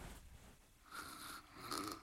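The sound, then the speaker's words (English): A sleeping girl snores softly, with two faint, breathy rasping snores in the second half, alone and quiet. “snoring again. I'll roll her over and she'll stop.”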